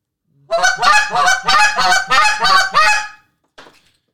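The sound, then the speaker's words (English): Goose honks blown on a hand-held goose call, imitating geese: a rapid run of loud, nasal honking notes in close rhythm, then a brief pause and one faint final honk. “That is by far my favorite goose calling note”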